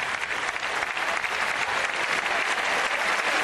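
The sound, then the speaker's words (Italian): Thunderous, sustained applause from a large assembly welcoming the first papal visit to Gran Canaria, dense and even clapping that holds at a steady level throughout without a break. “mentre continua l'applauso fragoroso di tutta l'assemblea, segno di grande affetto”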